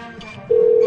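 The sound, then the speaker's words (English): Telephone tone on a call being placed: faint background noise, then a steady, loud electronic tone cuts in abruptly halfway through and holds at an even pitch. “So I thought I could try and give these people a call before I delete this note.”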